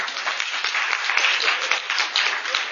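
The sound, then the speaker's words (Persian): An audience applauds with dense, continuous clapping that stays steady and fairly loud throughout. “یعنی یا دست براش بزنید”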